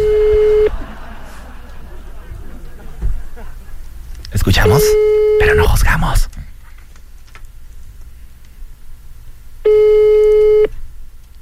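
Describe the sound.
Ringback tones from a telephone call being dialed: three long, steady electronic tone bursts separated by pauses, with people talking between them.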